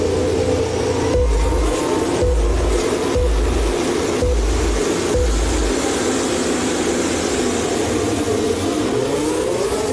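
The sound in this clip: Formula 1 cars roaring at the start of the 39th Hungarian Grand Prix, a loud, continuous engine drone with five regular low thumps about a second apart early on.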